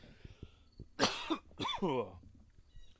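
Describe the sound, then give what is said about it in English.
Coughing from a person choking up while preparing spicy seasoning blends for venison. Two harsh coughs, the second rougher and throatier, stand out over quiet background noise. “Oh, excuse me. I must be thinking hot and spicy because now I'm all of a sudden getting choked up here.”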